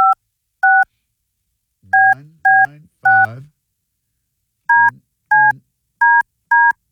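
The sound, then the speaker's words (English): A touch-tone telephone keypad dials a number, about nine short, clear two-tone beeps in an irregular rhythm, with brief bursts of a voice between some presses. “Simple, dial this number and let your voice be heard. I'm trying.”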